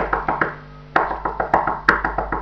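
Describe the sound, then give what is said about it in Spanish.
Knocking on the door of a straw house in a children's tale: many sharp, hollow raps in an uneven rhythm, with no voices. “Entonces el lobo pegó a la puerta”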